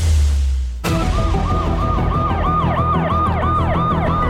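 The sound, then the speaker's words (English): A loud emergency siren from the Sonic 2 movie trailer cuts in abruptly after a brief low rumble, then wails in repeated rising and falling sweeps over a dense, steady backdrop. “Oh, whoop, here's this trailer. So I'm pretty sure you've seen this trailer, but I'm still excited. Yeah. Sonic 2.”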